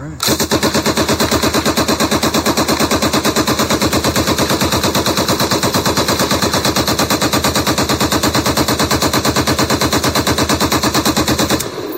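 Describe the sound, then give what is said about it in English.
An M60 machine gun fires a 100-round belt in one continuous, loud burst of rapid, evenly spaced shots at a steady cyclic rate for about eleven seconds, then stops abruptly. “I said the M60 just has the most beautiful cyclic rate of any machine gun. This is a 100 round belt of that ballet of noise.”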